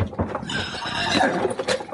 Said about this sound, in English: hold on to them horses